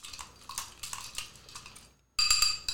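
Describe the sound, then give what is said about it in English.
A spoon clinks against a glass while a rum cocktail with lime, mint and simple syrup is stirred, giving many light rapid clinks, then a brief silence and a louder burst of clinking. “we have our lime, our mint, our simple syrup, our rum. And basically just giving it a stir.”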